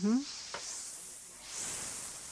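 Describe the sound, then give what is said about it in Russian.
Sizzling as tempered spice masala, with red chili, garam masala and asafoetida fried in oil, is poured into soup. A steady bright hiss swells louder partway through, after a brief voiced sound at the start. “Теперь вольем эту масалу в суп, размешаем.”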